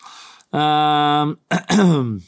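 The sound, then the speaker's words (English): A person clears their throat: a steady, low voiced hum-like note, a short gap, then a brief harsh burst and a final rough voiced push. It is moderately loud and stands alone. “sorry, I'm clearing my throat for no particular reason at all”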